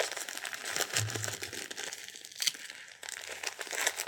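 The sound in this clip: Crinkling of adhesive tapes being fastened one after another while dressing a baby: soft, continuous papery rustle with a few louder crackly bursts.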